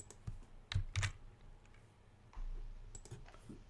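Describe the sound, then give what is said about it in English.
Someone types on a computer keyboard in a few faint, scattered bursts of clicks and taps, with pauses between them. “Everyone loves listening to people type.”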